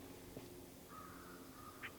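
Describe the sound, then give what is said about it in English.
Faint American crow caws from the top of an oak in a mixed stand of oak and American beech, a few short calls rising out of a steady low hum. “recording of American Crows falling from a good”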